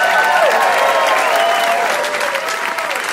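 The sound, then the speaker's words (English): Live studio audience applauding the show's guests, a loud, sustained burst of clapping with a few high whoops over it that eases slightly toward the end. “And can we get one more hand here for all our guests, please?”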